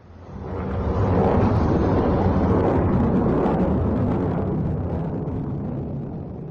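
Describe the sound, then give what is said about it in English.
Ballistic missiles launched from inside Iran make a loud, continuous roaring rumble. It swells in the first second and then holds steady for several seconds before easing off slightly toward the end. “That, according to state media, is the sound of ballistic missiles being launched from inside Iran.”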